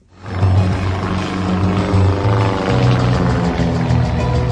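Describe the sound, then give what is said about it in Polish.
A steady, loud propeller-engine drone from historic and modern aircraft flying aerobatics at an air show at Sobienie Królewskie near Warsaw. The roar swells quickly at the start and holds without voices. “Można tu obejrzeć m.in. maszyny historyczne i współczesne w podniebnych akrobacjach.”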